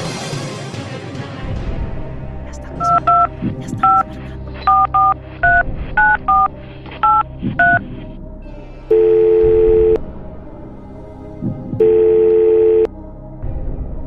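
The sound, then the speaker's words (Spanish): A telephone call dialed during a radio show: many quick keypad tones in a rapid uneven run, followed by two long, steady ringing tones separated by a pause. “Hagamos la llamada. Hagámosla.”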